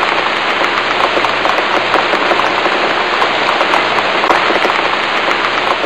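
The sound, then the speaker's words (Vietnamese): Steady rain falling outside an old administration building, a dense, even hiss of countless drops pattering on a surface, holding the same loud level throughout with no voices. “Ra khỏi tòa nhà hành chính cũ, che chung một cái ô vì trời vẫn mưa. Có lẽ do trời mưa nên suốt quãng đường đi không hề gặp một ai.”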